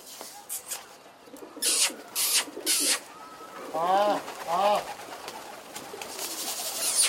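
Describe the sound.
Pigeons cooing in Peshawar: two clear, throaty, wavering coos in the middle, surrounded by scattered bursts of rustling noise and fainter background activity.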